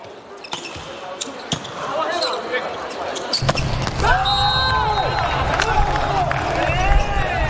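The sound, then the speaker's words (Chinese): A volleyball bounces on a court floor before a serve during a match against Ukraine. A few sharp, separate thuds ring out over steady crowd noise, with squeaking shoes and rising arena murmur in the second half. “换人发球，这彭世坤来发球。”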